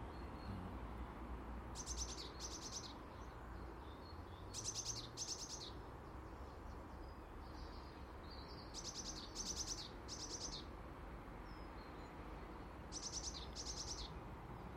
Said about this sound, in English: A wee birdie high on a tree, high on a silver birch.